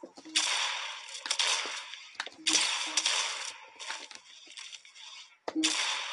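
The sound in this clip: Gunfire from a pump shotgun in a video game: three sharp, loud blasts, each followed by a short rattling decay, with a few smaller clicks and cracks between them.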